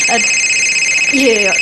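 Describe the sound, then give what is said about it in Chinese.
Telephone ringtone sounding as a call comes in, a steady high electronic tone held throughout, with brief vocal sounds underneath. “不好意思啊，我接个电话啊。”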